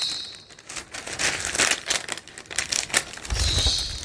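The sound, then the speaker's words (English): Sheets of paper are folded by hand for a handmade book with a signature cover, giving crisp crinkling and sliding rustles in irregular bursts, with a soft low thump near the end. “We need to fold our papers, so you get to see this again. And maybe we'll just fold these first, because they're here.”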